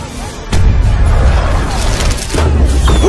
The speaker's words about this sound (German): Shen ließ nun aus allen Rohren feuern